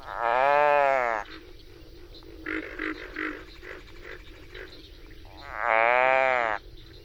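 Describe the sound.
Captured frog giving a distress call: two loud, drawn-out, harmonically rich cries, one at the start and one near the end, with quieter scratchy rustling and muffled noise between them.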